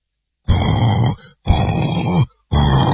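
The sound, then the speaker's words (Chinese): A voice imitates snoring with three loud, rasping, drawn-out snorts, each lasting under a second, separated by short silent pauses. “四个人啊比赛着打呼噜”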